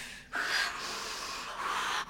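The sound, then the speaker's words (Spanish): A woman breathing heavily through a labour contraction: one long, loud, breathy exhalation held steadily for nearly two seconds, with brief catches at the start and end. “Vale, respira, respira, respira.”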